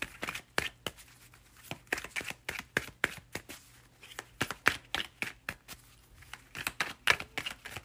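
Tarot cards being shuffled and drawn: many quick papery riffles, flicks and soft slaps in an uneven rhythm, fairly faint and without voices.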